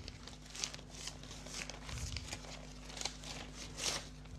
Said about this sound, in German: Okay, dann öffne ich diesen Umschlag.